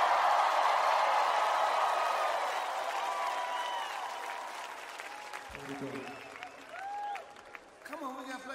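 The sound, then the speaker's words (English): An audience at a New York City concert applauds and cheers as a singer and musician is introduced: dense clapping, loud at first, gradually thins and fades while sustained musical notes come in over the dying applause. “Everybody make some noise for the King of the Kings when it comes to singing and playing, Stevie Wonder.”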